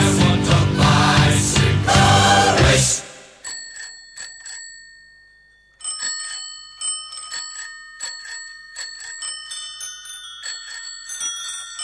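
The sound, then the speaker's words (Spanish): Bicycle bells ring during a month-long cycling event in Gijón, giving many bright metallic dings in a quick, irregular series with some overlapping. A few seconds of dense, louder sound come before the bells. “Pues ese sonido de los timbres de las bicis, un sonido que se ha podido”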